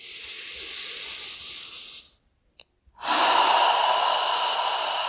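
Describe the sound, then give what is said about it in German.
A deep breath in, taken during a guided relaxation exercise: a long, airy hiss, then a brief near-silent pause, then a second and louder breath. “Und noch einmal einatmen.”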